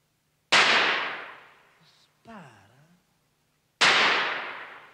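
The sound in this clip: Two sharp pistol shots, each a loud bang with a long decaying tail, about three seconds apart, separated by a brief wavering tonal sound.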